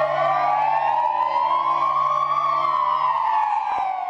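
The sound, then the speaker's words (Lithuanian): A police car siren sounds as a tribute to a fallen officer: one loud, steady wail that slowly rises in pitch and then falls, heard alone. “Policininkai visoje šalyje atidavė pagarbą žuvusiam kolegai įjungdami tarnybinių automobilių švyturėlius bei sirenas.”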